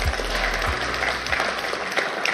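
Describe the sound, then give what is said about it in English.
A church audience applauds with a sustained wash of clapping that stays even from start to finish, joined by a few low thumps near the beginning. “Let's give applause for Lord Jesus Christ.”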